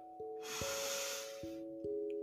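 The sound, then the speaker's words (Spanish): A deep, slow inhale during a guided breathing exercise comes as a soft, airy hiss lasting about a second over gentle sustained music tones that shift pitch. “Una vez más, inhala y exhala.”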